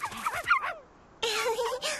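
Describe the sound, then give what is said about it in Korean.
Cartoon puppies yip and whimper in two bursts of high, warbling cries, the first bouncy and pitched, the second louder and denser after a short silent gap. “강아지들은 내가 먹여. 얘들아, 돌아와.”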